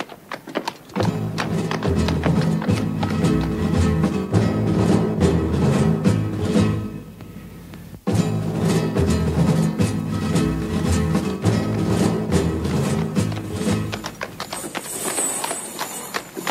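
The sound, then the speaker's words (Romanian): Donkey hoofbeats as the animal walks slowly along the road: a steady, continuous clip-clop rhythm with a brief break midway, loud and dense throughout. “Porniți, porniți, că vă urmez. Mai departe, fiindcă măgarul meu merge cam încet”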